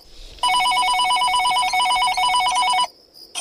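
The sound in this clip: A telephone rings with one long, fast-trilling electronic warble. It is loud and steady for over two seconds, then cuts off into quiet.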